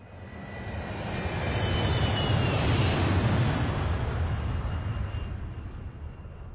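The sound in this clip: An airplane flies past with a broad engine roar that swells steadily to a peak midway, then eases slightly while staying loud. No voices are heard.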